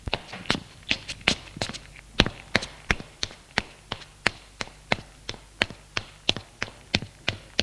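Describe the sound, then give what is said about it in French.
Footsteps climb a large marble staircase, many sharp, hard taps in a steady, even rhythm, clear and alone with no voices. “il monte un grand escalier de marbre.”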